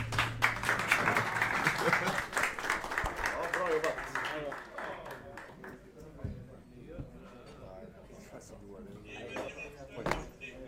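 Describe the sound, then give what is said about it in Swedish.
Audience applause, a burst of many hands clapping that is loudest at the start and fades within a few seconds, after which voices talk quietly. “Yes, en till applåd då, om ni orkar.”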